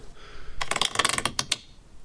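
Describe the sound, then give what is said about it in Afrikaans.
Ratcheting as a wall is bolted in place: a quick burst of many sharp mechanical clicks and ticks over about a second, louder in the middle, with quiet before and after. “Laat my net hierdie muur vasbout.”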